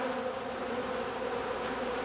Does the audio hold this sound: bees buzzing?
yes